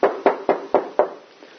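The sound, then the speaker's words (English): Five evenly spaced knocks rap on a door in quick succession, sharp and firm, followed by a faint trailing rustle. “And one day you're going to get a knock on the door.”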